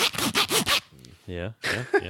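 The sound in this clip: A beefy zipper on a pencil pouch rips open in about four rough, rasping strokes, followed by brief voiced sounds and more scratchy zipping.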